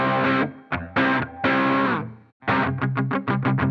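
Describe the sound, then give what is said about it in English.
A Framus Strato Deluxe electric guitar with a built-in battery-powered preamp, heard with a gritty, driven tone: a few sustained chords ring out in separate bursts, followed by quick repeated strums. “It has a preamp built into it. This thing takes a battery if you want. Here's what it sounds like without the battery. And then you turn it on and you get a little kick.”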